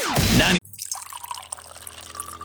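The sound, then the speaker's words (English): Water gushes loudly from a turned-on tap for about half a second, then cuts off abruptly. Faint scattered drips and trickles follow through the rest of the moment. “Turning on the tap and knowing clean, safe water is there.”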